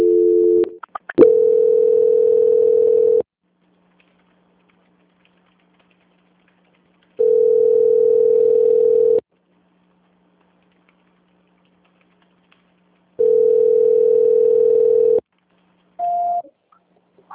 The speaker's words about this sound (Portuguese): não consegui transferir a ligação. Eu vou tentar novamente, tá?